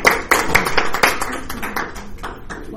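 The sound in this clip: Applause from a meeting audience welcoming the next speaker to the front: a brisk, dense patter of many hands clapping, strongest at the start and gradually thinning and softening toward the end.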